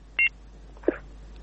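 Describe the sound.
A telephone call cut off by a technical problem: a single short electronic beep on the line, followed moments later by a faint soft thump.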